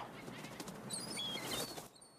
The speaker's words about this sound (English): Seagulls take flight.